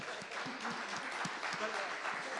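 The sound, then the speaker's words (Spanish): An audience gives faint applause at a church gathering, soft and steady, with voices mixed in. “Vamos, un aplauso.”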